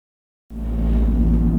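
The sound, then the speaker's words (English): Car tires drive over a rumble strip, producing a loud, low droning buzz that starts abruptly after half a second of silence and holds steady until the end. “That's the sound of a car crash being prevented by a rumble strip.”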